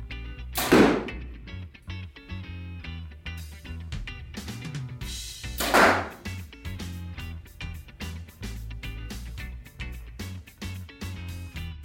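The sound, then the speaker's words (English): An Obsession Final Pro X bow shoots arrows: two sharp, loud snapping releases several seconds apart, each quickly fading. “so that was the Obsession Final Pro X. Got a couple shots through it.”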